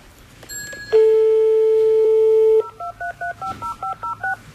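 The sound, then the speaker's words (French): Telephone dialing to call a taxi: a steady dial tone holds for under two seconds, then a quick run of about ten keypad beeps at shifting pitches follows, clear and alone with no talk. “On appelle un taxi.”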